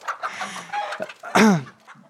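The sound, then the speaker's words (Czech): Hens clucking, two pet hens, with a few soft clucks and then one loud, sharp call that drops in pitch before the sound trails off into quieter clucking. “Jsou to moje dvě slepice, já je mám už odmala a prostě neudělám bez nich krok”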